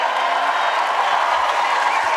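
A standing ovation greets John Travolta at the Cannes Film Festival as he receives an honorary Palme d'Or; a steady, dense wash of crowd applause holds at a constant level.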